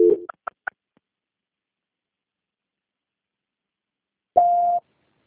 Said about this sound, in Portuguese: eu vou transferir a ligação agora, tá bom? Tá ok. Só mais um minuto e linha. Transferência.